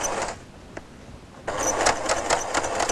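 A sewing machine stitches a seam to the end of the fabric, a rapid whirring mechanical run full of fast ticking stitch pulses that dips briefly, then resumes louder.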